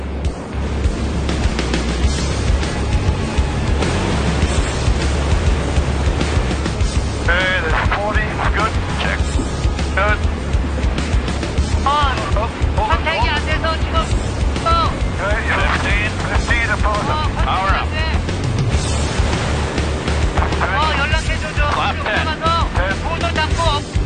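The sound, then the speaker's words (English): Amphibious 215 aircraft engines throttling up on calm sea water make a loud, steady roar. The roar is thickened by wind and water noise, and voices speak over it throughout. “the seas stay calm, and the 215 can take to the air for the first time since leaving Vancouver almost a month ago. Hopefully everything goes good. Hey, follow me on the throttles there,”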